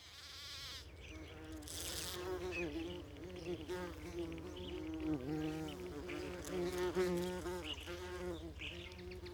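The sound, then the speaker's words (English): Buzzing of a great yellow bumblebee in Scotland: a continuous, quiet, droning hum with a slightly wavering pitch that rises and dips as the insect moves, heard alone over a soft background. “She is a great yellow bumblebee, one of Scotland's most special bumblebees.”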